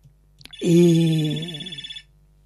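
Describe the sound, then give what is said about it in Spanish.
A telephone rings once with a sustained buzzing electronic tone and bright upper harmonics. It wavers into a fluttering pulse before cutting off, and a brief click comes just before the ring. “vamos a atender la llamada primero.”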